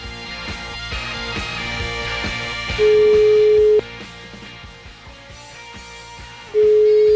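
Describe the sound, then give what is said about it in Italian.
A telephone call placed to a number on the Salaria, a steady ringback tone lasting about a second, a pause of several seconds, then the next ring beginning, after a stretch of clicking, tonal noise. “La facciamo o no? Questa telefonatina sulla Salaria, che dici?”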